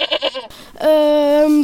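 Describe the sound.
A sheep bleats at a sheepfold on a farm: a short, wavering, pulsing call, a brief pause, then one long, steady, loud bleat that holds before cutting off.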